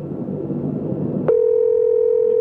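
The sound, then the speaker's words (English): Telephone line tone heard while dialling a call: soft hiss for about a second, then a click and a steady, unbroken tone that holds loud and level to the end. “we're going to call Oxford and see if we can't get somebody to give us some information about what Oxford is all about.”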